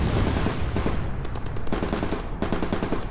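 Artillery and rocket fire mixed with rapid gunfire during an enemy attack at dawn on a Vietnam War camp. A loud, continuous barrage with bursts of fast, rattling shots, and no voices.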